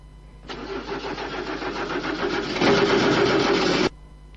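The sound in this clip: A car engine with a troublesome starter is started after a drop of petrol goes into the distributor. It runs with a rough, steady mid-pitched roar that swells louder partway through, then cuts off abruptly.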